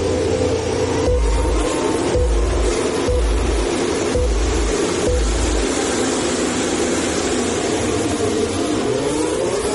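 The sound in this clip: Formula 1 cars at the start of the 39th Hungarian Grand Prix: five deep, booming pulses about a second apart, then a sustained, dense engine roar with a pitch that climbs toward the end.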